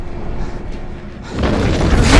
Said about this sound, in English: The floor around the compass drops and splits down the middle of the plinth.